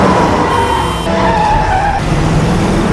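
Car tires skid and squeal as the car turns sharply, a loud, continuous screech with rough engine noise that holds for the whole clip.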